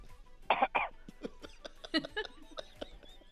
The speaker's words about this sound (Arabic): عطني كحة